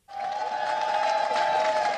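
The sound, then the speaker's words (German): Supporters cheer outside the headquarters of Romania's national-liberal governing party PNL in Bucharest on election night, as the polls close. A dense, steady crowd roar holds throughout, with a sustained high tone running through it. “Jubelnde Anhänger vor der Zentrale der nationalliberalen Regierungspartei PNL, als Klaus Johannes direkt nach Schließung der Wahllokale in Bukarest vor die Kameras tritt.”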